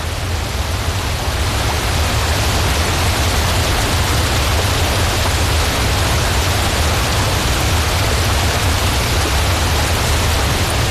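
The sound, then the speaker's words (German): Rushing roar of a waterfall dropping over 14 cascades and about 500 meters into a turquoise Swiss lake at Brienz; a dense, steady, loud hiss with a deep low rumble continues unbroken and unchanging throughout. “Der Giessbach stürzt über 14 Kaskaden und eine Gesamtlänge von 500 Meter runter in Brienzer See, der ja wiederum auch wunderschön aussieht.”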